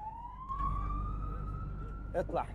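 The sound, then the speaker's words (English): An ambulance siren sounds as the ambulance races through the streets, a steady wailing tone that climbs slowly in pitch, followed by a couple of short, louder bursts near the end. “Now its driver is changing gear as the ambulance races through the streets. He pulls up sharply outside the hospital and the patient is taken from the back on a trolley.”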